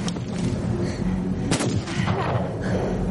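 A pistol gunshot cracks once about midway as a single sharp, broad burst. It sits inside a dense, loud, rumbling wash of noise that runs through the whole clip.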